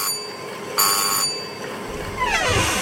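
A calling bell pressed on a district magistrate's desk gives one short, bright ring lasting under half a second over a steady background hiss.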